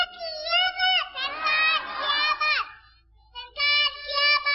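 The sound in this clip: A crowd of children shouts a slogan in unison, in a few loud, high-pitched chanted bursts with a short lull near the middle before the voices come back strongly.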